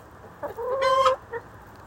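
Chickens clucking in a coop that opens onto a run: a few short clucks around one longer, louder call in the middle, alone over a faint background hiss.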